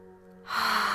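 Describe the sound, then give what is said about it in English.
A deep breath drawn in through the nose during a guided cleansing-breath exercise: a single smooth, airy inhalation that starts after a brief quiet and holds steady to the end. “So breathing in through the nose,”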